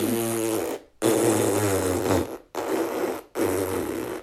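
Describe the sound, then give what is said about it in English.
A voice imitates a woman farting like a Yamaha motorbike: four long, loud, buzzing 'brr' raspberries separated by brief pauses. “the lady next to me is farting like a Yamaha motorbike. Going, brr,”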